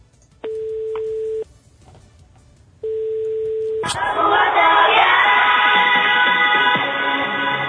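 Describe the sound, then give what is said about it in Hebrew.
A telephone call being placed sounds two steady, even ringing tones, each about a second long with a pause between. A louder, fuller burst of sound then takes over. “הנה אנחנו מחייגים”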